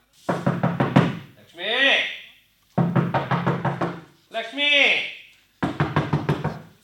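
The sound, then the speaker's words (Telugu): Someone knocks on a door in three bursts of rapid, firm raps. Each run of several knocks is separated by a person calling out. “ఎవరు? బాబ్బా ఎవరో తలుపు బాధేస్తున్నారు.”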